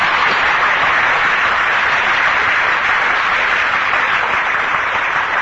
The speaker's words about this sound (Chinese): 那么你们现在鼓掌